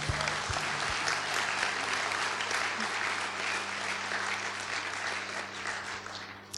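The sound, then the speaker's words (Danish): A crowd applauding a group of young people, loud sustained clapping at a church youth celebration that stays even and eases slightly toward the end. “Prøv lige at give dem en hånd.”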